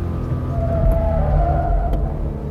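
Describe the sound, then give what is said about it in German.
A car accelerates out of the last left-hand curve on a test track, with the engine at about 5000 rpm and nearing 130 km/h. A steady, loud low engine rumble carries thin whining tones above it. “Das Fahrzeug geht durch die letzte Linkskurve, beschleunigt. 5000 Touren zeigt der Tourenzähler im Moment”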